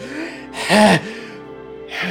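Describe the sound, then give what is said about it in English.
A voice imitates being winded and out of breath. A few heavy, breathy gasps come with a pause between them, the first one the loudest. “Felix is going to catch up a little, like just shortly after, right? Like out of breath, right? Just like winded.”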